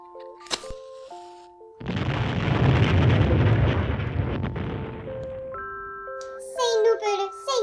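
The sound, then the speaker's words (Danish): A firecracker banger explodes under a Christmas tree with a sudden heavy burst that rolls into a long, rumbling roar and slowly fades. Bright chiming musical tones come before and after it. “Vi lægger kanonslaget her.”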